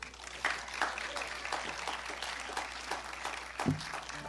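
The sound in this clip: An audience applauds to welcome a musician onstage. The clapping is steady, moderate and fairly faint, with a few sharper claps standing out.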